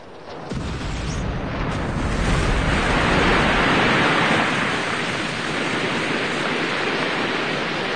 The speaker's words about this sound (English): The rocket hits the water, sending up a gigantic mountain of spray.